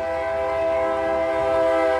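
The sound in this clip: A train at a depot sounds a loud, steady horn as it starts up, one unbroken tone with no voices.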